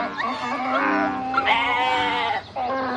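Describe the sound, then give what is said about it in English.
Goats bleating in a long, wavering run of loud, nasal calls that sound like animals singing. There is a brief dip near the end, and no talk. “And when animals sing, it sounds like this.”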